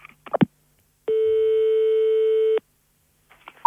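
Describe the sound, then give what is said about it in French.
Telephone line ringing on a call to the police: one long, steady mid-pitched ring tone lasting about a second and a half, with faint clicks before it and a few soft noises after. “J'appelle la police.”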